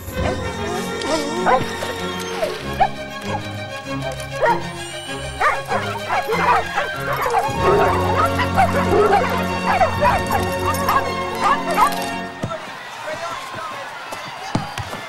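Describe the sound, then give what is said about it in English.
Dogs bark and yip many times, the sharp overlapping barks scattered throughout with a few whimpers, over a dense, busy background that cuts off abruptly near the end. “Inside the room, Emma blows the dog whistle. As before, the dogs of Fernfield all look up, drop whatever they're doing, and set off at a run.”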